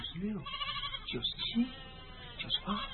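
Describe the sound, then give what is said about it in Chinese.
Lambs bleating as a shepherd hurries his flock home before rain: a few short, wavering bleats, fairly faint, with soft talking under them. “阿山急忙招呼着小羊准备回家，他伸长了脖子数着”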